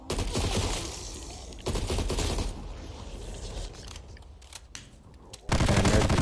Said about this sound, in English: Ground mag taking a minute to reload. Yeah, I didn't realize that when I picked this LMG, but it might not be the best scenario later.